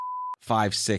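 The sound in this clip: A brief, steady censor bleep covers a spoken phone number, a pure tone lasting about a third of a second, followed by a moment of silence and then a voice talking.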